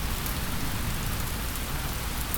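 Steady rain falls throughout, a dense, even hiss of drops with no pauses or distinct hits and no voices.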